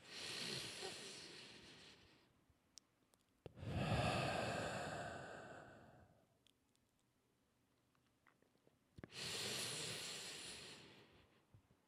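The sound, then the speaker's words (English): Deep, congested breaths from someone several days into antibiotics for an illness: three long, rough, breathy pulls separated by quiet pauses with faint clicks and rustles between them. “Big deep breath. One more. You're going to get my big, congested, fourth day of antibiotics deep breath attempt, okay?”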